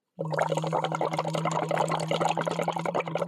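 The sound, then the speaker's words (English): Bubbles blown through a straw into water during a voice exercise, with a steady low hummed tone running under loud, continuous fine bubbling for the whole clip. “So I can blow the bubbles like this again and add voice now.”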